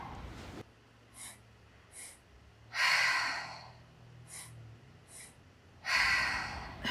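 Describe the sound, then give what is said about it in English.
Deliberate breathing in a circular breathwork technique, with belly and chest inhales followed by exhales; short sniffing intakes alternate with longer, louder breathy rushes, repeating in a steady cycle with no talking. “Belly, heart, exhale. And so it's a circular technique, which as soon as you exhale, you're going right back into the breathing”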